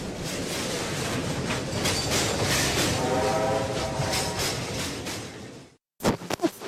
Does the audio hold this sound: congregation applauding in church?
no